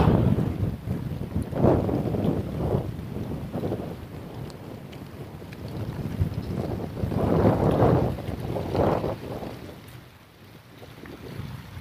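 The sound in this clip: Wind gusts against a sailboat running with the wind, with water noise beneath. The rushing swells up twice in broad surges, then drops away near the end.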